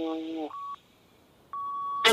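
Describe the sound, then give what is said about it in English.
Timer going off after sixty seconds with clean electronic beeps, a short steady tone, then a pause and a longer one, with a voice speaking just before. “All right, your 60 seconds timer is done.”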